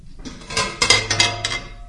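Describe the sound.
A ceramic plate used as a lid is lifted off a kettle of thickened milk with a scatter of clinks and clatters, several bright knocks in quick succession over a low hum.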